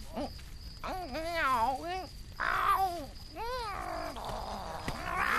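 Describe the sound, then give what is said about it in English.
A human voice imitating a cat, producing several drawn-out, wavering meows and yowls that rise and fall in pitch, separated by short gaps, fairly loud and alone. “Look! Listen! It can't talk. The cat has forgotten how to talk. It's gone back to being a dumb beast.”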